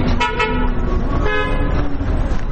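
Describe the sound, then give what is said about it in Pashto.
Car horns honk amid steady traffic on the Kabul–Kandahar highway near Ghazni, in a congested stretch with a damaged road. Several overlapping horn tones and short toots sound over a continuous engine and road rumble. “دلته ډیرای موټران دوری دوری تیریږي.”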